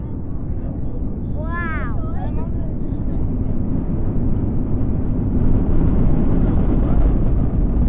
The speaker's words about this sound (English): What you're listening to is the sound of a 15-year-old Emirati girl's science experiment being blasted into space.